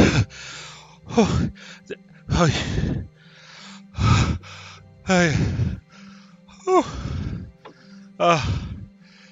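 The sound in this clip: Heavy panting of someone out of breath, voiced by a person acting it out: a run of loud, harsh gasping breaths in an uneven rhythm, each a short rasping burst separated by brief quieter pauses.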